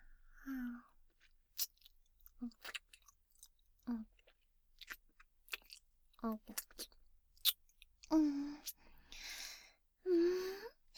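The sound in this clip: Wet licking and smacking mouth sounds with short clicks and slurps, then a couple of louder voiced murmurs of tasting near the end, all fairly close and quiet between bursts.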